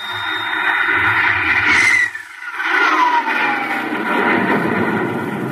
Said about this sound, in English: Countdown for blastoff. X-5, minus 4, minus 3, minus 2, X-1, fire.